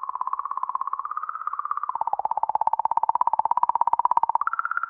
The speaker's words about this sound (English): The sound you're hearing reveals unexpected oscillations in the magnetic field around the comet, a field that's around a million times weaker than a fridge magnet.